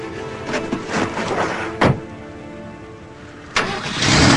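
A Jeep engine starts with a short, sharp burst of noise that settles into a running rumble. A second burst follows, then a louder, sustained surge of engine noise as the vehicle moves off.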